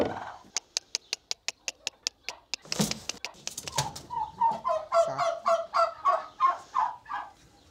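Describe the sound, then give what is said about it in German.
Turkey hens cluck at an automatic feeder. A rapid series of sharp, regular clicks comes first, then a brief rustling burst, and then many rhythmic, nasal clucks repeating at a steady pace. “Inzwischen weiß Christine ganz gut, wo ihre Puten die Eier hinlegen. Einige bevorzugen momentan den Futterautomaten und lassen sich nur ungerne vertreiben.”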